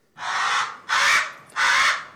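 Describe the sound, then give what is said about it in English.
Hawaiian crow (alala), a rare endangered crow, gives three loud, harsh, raspy caws. Each lasts about half a second, and they are spaced at an even rhythm with no other sounds. “That's the sound of the alala, a rare crow that's only found in the Hawaiian Islands.”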